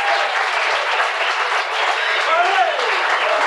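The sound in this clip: An audience applauds to welcome a banjo player from Texas onto the stage at a bluegrass show. The clapping is dense and steady, holding an even level throughout.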